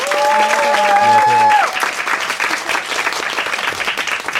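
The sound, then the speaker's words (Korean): Audience applause welcoming guest musicians: dense, steady clapping for about four seconds. A brief tonal sound sits over the opening second and a half, then fades as the clapping carries on alone. “박수로 환영해 주십시오.”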